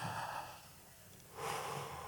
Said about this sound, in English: Everybody deep breath. Can y'all do that real fast for me?